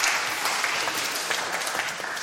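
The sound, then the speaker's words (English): Audience applause fills the whole clip, a dense, steady wash of overlapping claps at an even level with no voices standing out. “Let's give Adam a round of applause. That was fantastic.”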